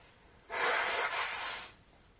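A slow inhale through the nose during a breathing exercise: one soft, airy breath lasting a little over a second, rising in and easing off, faint against quiet background hiss.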